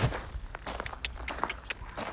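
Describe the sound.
A foal's hooves step slowly and carefully over soft gravel, giving a few irregular, gritty crunches of moderate loudness with no talk over them.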